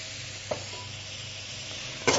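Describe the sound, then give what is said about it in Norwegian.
Steady sizzling as king crab spring roll filling fries in a pan with butter and soy sauce. A continuous hiss runs throughout, with a couple of brief louder crackles. “Fordi at hvis du hører på lyden, så har du fremdeles den lyden som gjør at den steker ennå.”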